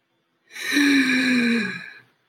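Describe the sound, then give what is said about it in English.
A deep breath during a guided meditation for fear: one long, slow exhale lasting about a second and a half, slightly voiced like a sigh, rising in and fading out, alone with no talk. “Join me in filling your lungs to their capacity. Emptying your lungs, filling your lungs,”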